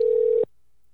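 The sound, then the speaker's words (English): A telephone ringing tone on a call line: one steady electronic tone that holds evenly, then cuts off abruptly after about half a second and leaves silence. “see if he answers the phone. The phone is ringing here”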